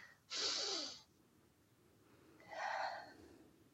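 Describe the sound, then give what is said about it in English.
A deep, audible breath: a quiet, airy inhale followed after a pause of about a second by a slower, breathy exhale. “we'll take a deep breath just to become like fully present and grounded in our body”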